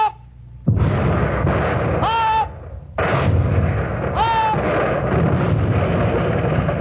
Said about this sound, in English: Open fire! Open fire!